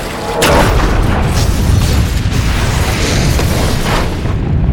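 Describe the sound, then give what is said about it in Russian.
A jet ski carrying explosives crashes into a yacht and blows up: a loud boom bursts in suddenly, then a dense, sustained roar rumbles on for about four seconds. “Врезается в яхту. На его скутере была взрывчатка. Произошло столкновение.”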